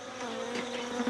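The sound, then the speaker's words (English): Honeybees buzzing as guard bees patrol the sixteen hives of a farm apiary holding about half a million bees; a dense, steady droning hum holds even in loudness throughout the short stretch. “This is the sound of soldier bees.”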